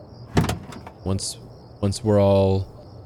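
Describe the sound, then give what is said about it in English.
A Jeep being unlocked and its side door opened: a few clunks and mechanical clicks, then a longer, steady tonal hum. “I'll lead us over to the Jeep. I'll click the thing that unlocks all the doors and open up at least the side that I'm on and just hop in.”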